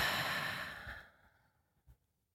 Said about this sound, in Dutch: En adem dan even diep in door je neus. En uit door je mond.